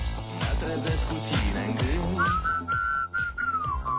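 A whistled song melody, a favourite tune, starts about halfway through and carries a steady, high, clear line over rhythmic instrumental backing that plays throughout.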